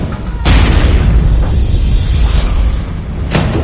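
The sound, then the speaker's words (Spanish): Bomb detonating at an archaeological site, a loud deep rumbling boom that rolls on steadily, with two sharp bright cracks rising above the low roar. “destruyen sistemáticamente reliquias históricas y detonan bombas en varios yacimientos arqueológicos”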